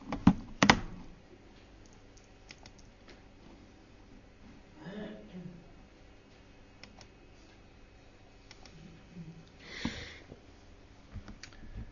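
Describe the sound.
A presentation slide is changed during a church prayer service. A few soft, sharp clicks stand out over quiet room noise, with a faint breath and brief vocal sounds.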